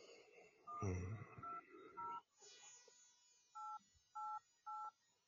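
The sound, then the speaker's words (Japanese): Telephone keypad tones sound as someone dials a customer service center. Several short, clear electronic beeps play, with three evenly spaced tones at the end and some faint background noise under the first beeps. “とりあえずちょっとこのカスタマーセンターここかここかけてみようか”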